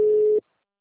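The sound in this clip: A telephone tone sounds while a call is being dialed: one clear, steady beep lasting under half a second, then near silence.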